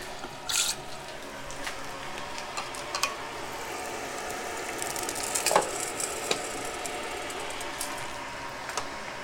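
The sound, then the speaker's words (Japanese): Frying food sizzles in a small pan that heats up quickly, cooking a single portion. A faint, steady hiss runs throughout, with a few light ticks and pops on top. “これは結構熱がすぐ伝わっちゃうんでやばいんだよあっという間に焦げるだけど1個分焼くにはこれぐらいがいいよね”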